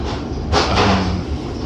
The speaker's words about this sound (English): I'm on the train back home now.